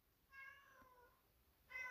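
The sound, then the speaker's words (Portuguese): Two faint, drawn-out cat meows: the first long and tonal, the second beginning near the end and cut off, with quiet between them. “Meu Deus do céu. Alguém ajuda esse gato.”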